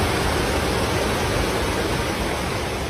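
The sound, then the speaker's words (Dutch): Floodwater flowing through the streets of Cesena, a northern Italian city, after heavy rain that followed months of drought: a continuous, loud, dense rushing roar with no breaks. “Dit is geluid van water dat door de straten van de Noord-Italiaanse stad Cesena stroomt.”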